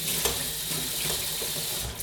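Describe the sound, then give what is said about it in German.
Tap water runs in a steady, hissing rush as it rinses drained canned food in a sieve, a continuous even spray with no voices. “kurz mit Wasser drüber. Machen wir die schön sauber.”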